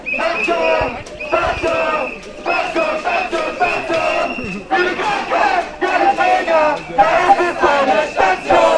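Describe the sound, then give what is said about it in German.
Protest crowd chanting loudly in the streets of Marburg on a Tuesday morning, as hospital workers in a service-sector union march for more staff. Many voices shout repeated, rhythmic phrases with short pauses between them. “so soundete es am Dienstagvormittag durch Marburgs Straßen. Die Dienstleistungsgewerkschaft Verdi hatte an diesem Dienstag, den 19. September, bundesweit die Krankenhausbeschäftigten für mehr Personal auf die Straße gerufen.”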